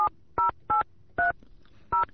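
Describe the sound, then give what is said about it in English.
A telephone number is dialed on a touch-tone keypad: five short, clear dual-tone beeps at uneven intervals, fairly quiet against a faint background, with no talking. “I'm going to try to make a call, see if I could reach them out there. Let's see. I've got a phone number here.”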